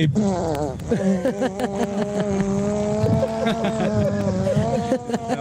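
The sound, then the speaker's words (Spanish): A voice imitates a long fart with a continuous buzzing, motor-like drone that wavers in pitch and carries on for several seconds with only brief breaks. “Peo eterno. O así, motor que tiene ahí. Ay, mi amor, qué pena. Ay, qué peo tan largo.”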